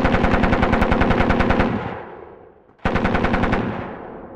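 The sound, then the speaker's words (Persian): Rapid machine gun fire in two loud bursts: a long stream of quick, even shots that tails off into a fading decay, then a second burst that starts abruptly and keeps rattling. “الان ای چی بود؟ صدای رگبار چی بود؟”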